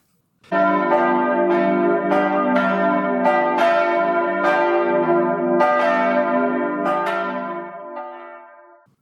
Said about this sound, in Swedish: klockorna har ringt in till det första avsnittet av säsong 2.